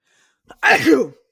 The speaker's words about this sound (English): excuse me, wasn't expecting to sneeze in the middle of the podcast.